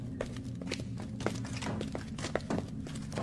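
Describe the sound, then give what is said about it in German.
Knocking in an audio drama, as characters searching a labyrinth hear someone knock: a series of dull, irregular thuds and taps, fairly quiet, with a few stronger hits standing out. “Da klopft jemand. Stimmt. Es kommt von dort.”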